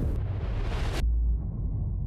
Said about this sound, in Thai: คุณครูบอกว่ามีการระเบิดแล้วก็สั่นนะกระจกเนี่ยสั่นดึ๊ดๆๆอย่างเงี้ยเลย